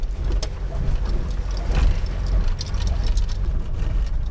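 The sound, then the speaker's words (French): A car rolls over gravel stones, a continuous low engine and tyre rumble overlaid with steady crackling crunches from the loose stones. “Ben comme vous pouvez l'entendre, ça fait du bruit, hein. On roule dans les cailloux.”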